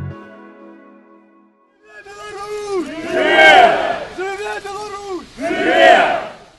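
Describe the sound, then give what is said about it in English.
Hundreds of Belarusian exiles and diaspora chant together at a vigil outside the Belarus embassy in Kyiv. Loud massed voices rise in two swelling surges of shouted phrases. “The sound you're hearing there is from a vigil. It's for a man named Vitaly Shishov. And at the vigil, there are hundreds of Belarusian exiles and diaspora.”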